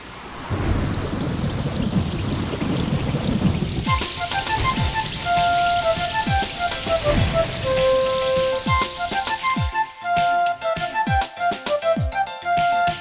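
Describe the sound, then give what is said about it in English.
Rain falls in a steady, dense hiss. After a few seconds, a tinkling, melodic sequence of tones joins in and plays over the continuing patter. “Rain, rain, go away. Come again another day.”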